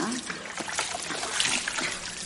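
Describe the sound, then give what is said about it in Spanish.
Water trickles and splashes as it is poured over heads in a marble bathhouse, a soft, continuous patter of falling water with scattered brighter drips. “Ambas se echan agua sobre sus cabezas.”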